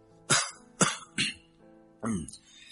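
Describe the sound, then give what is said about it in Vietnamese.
A man fakes a cough at a shop counter, forcing out four short, dry coughs in an uneven rhythm, with clear gaps between them. “Minh đã chuẩn bị sẵn, làm bộ ho mấy tiếng và đáp:”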